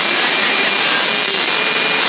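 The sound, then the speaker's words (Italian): An electric fan running to cool coffee makes a steady, even whooshing hum with no breaks, constant in loudness throughout. “sto a pigliare un ventilatore a raffreddarsi il caffè”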